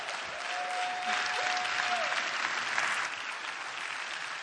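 A church audience applauds to thank and welcome a couple, a steady wash of clapping hands that holds for about four seconds, swelling slightly in the middle before easing off, with no talking over it.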